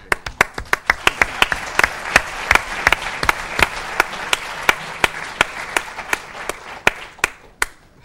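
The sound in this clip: An audience gives a speaker's helper applause: crisp, fairly sparse hand claps overlap in a steady patter that holds for several seconds and then thins out toward the end.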